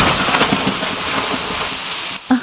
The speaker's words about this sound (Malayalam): പുറത്ത് മഴയാണ്, ശക്തമായ ഇടിയും മഴയും.